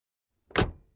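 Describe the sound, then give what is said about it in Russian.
A car door slams shut with a single heavy thunk: a short, loud burst that hits sharply and fades quickly into a faint low rumble, alone against silence. “Дверь автомобиля захлопнулась.”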